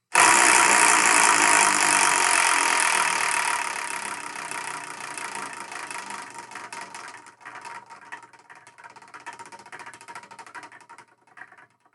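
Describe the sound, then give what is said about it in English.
A prize wheel spins with rapid, dense clicking that gradually slows and fades over about twelve seconds, ending in separate, sparser ticks. “And now we're going to spin that one, not only the wheel of manga, and see what we're going to review in the next episode of the Spark and Manga Review.”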